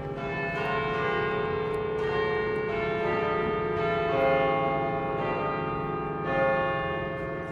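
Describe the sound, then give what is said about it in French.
A great bourdon church bell rings with deep, booming strokes that blend into one loud, sustained hum full of lingering overtones, swelling periodically as the bell swings. “Donc, le bourdon s'élance, sonne pour la première fois”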